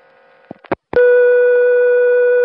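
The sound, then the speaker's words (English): Special dial tone from a 660-type telephone exchange: a few brief clicks, then a loud, steady, unbroken tone that holds to the end. “So there was no receiver off hook tone, but there was a special dial tone on the 660,”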